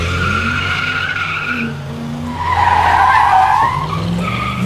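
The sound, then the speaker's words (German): Car accelerating hard from a traffic light with spinning, squealing tires: a loud, sustained, high-pitched tire squeal over an engine roar, swelling louder midway and continuing without pause. “bei der Ampel so viel Gas zu geben, dass die Reifen durchdrehen”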